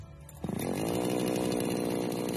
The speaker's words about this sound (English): Chainsaws are powerful and highly dangerous tools.